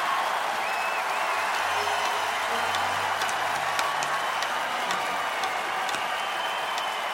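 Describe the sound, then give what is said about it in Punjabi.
Audience applause, a dense, even patter of many hands clapping that stays at a steady level for the whole stretch with no pauses or swells. “ਤਾੜੀ ਇਸ ਕਰਕੇ ਮਾਰਨੀ ਹੈ ਕਿ ਮਸਲੇ ਹੁਣ ਮੁੱਕ ਜਾਣ ਜਾ ਰਹੇ ਕਾਂ ਤੁਰੀਏ ਆਪਾਂ ਜ਼ੋਰਦਾਰ ਤਾੜੀ ਮਾਰੋ”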